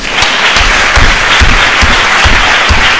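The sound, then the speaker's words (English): An audience applauds Lithuanian President Adamkus with loud, dense, steady clapping that holds at an even level throughout. “we have actually the President of Lithuania here today, Mr. Adamkus, if we could give him a little hand.”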